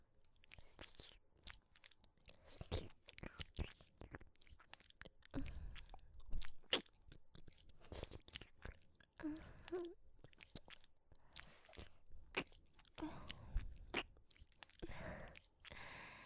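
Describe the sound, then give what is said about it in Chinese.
Wet tongue-licking and mouth sounds in an ASMR ear-licking scene. Many soft, irregular smacks and slurps follow each other closely at a faint, intimate level. “像这样用舌头深深地探入弟弟的耳朵里面”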